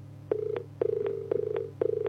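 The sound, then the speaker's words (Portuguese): Telephone tones after a call drops: four steady mid-pitched beeps in an even rhythm, each with a small click at its start and end, over a low constant hum. “Alô? Alô? Opa, acho que caiu. Alô?”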